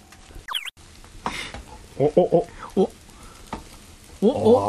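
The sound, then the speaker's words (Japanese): Takoyaki sizzle on a griddle as two men flip them, with steady frying hiss broken by quick bursts of crackling and light scraping clicks from the turning. “男が2人でたこ焼きひっくり返してさ、そのラジオ まだ10月なら許されるけど12月にこんなことやってたら僕ら本当に泣くぞ。”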